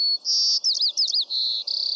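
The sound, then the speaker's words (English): A white-crowned sparrow sings a clear, high whistled song: a steady opening note, a run of quick rising-falling slurred notes, then buzzy sustained trills, loud and alone over faint low background noise. “This is the song of a white-crowned sparrow. Some describe it as, "See me, pretty, pretty me."”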